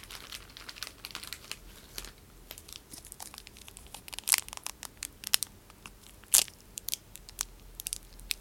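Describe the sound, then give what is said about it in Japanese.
Chocolate is unwrapped and eaten: quiet crinkling of the wrapper and crunchy bites, with many small clicks and rustles and a few sharper crackles. No one talks. “はあ、チョコレート食べよう。”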